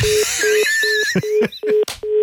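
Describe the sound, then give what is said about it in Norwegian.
Telephone tones while redialing a dropped call: a quick series of short, evenly spaced mid-pitched beeps, mixed with other warbling tones. “Vi må ringe opp igjen.”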